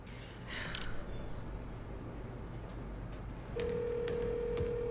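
A telephone is dialled, with faint short clicks or beeps over low background noise, and then a steady ringing tone holds until the end.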